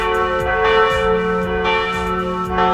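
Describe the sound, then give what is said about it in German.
Wedding church bells ring in a full, continuous peal, with deep overlapping strikes and long humming tones sustaining loudly throughout and no voices. “Läuten bei euch auch bald die Hochzeitsglocken”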